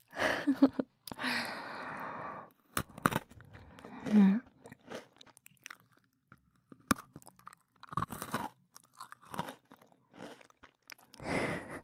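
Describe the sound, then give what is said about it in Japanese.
A person chewing food with crunchy, moist bites. Many short bursts of chewing alternate with brief quiet gaps, loud and close, with no talking. “なんかもごもご食べてる姿、ハムスターみたいだね。”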